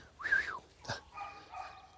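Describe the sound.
An eight-week-old puppy whimpers during play while being trained to point: a high, arching whine, then a brief harsh yelp-like burst, then a longer, steadier whine. The whimpers are moderately loud and heard alone.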